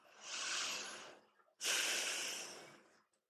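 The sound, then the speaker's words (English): Slow breathing out in two long, airy rushes of breath. The second begins abruptly, is louder, and fades out gradually, with no talk. “Exhale. Lord, I confess my anger and faithless stress.”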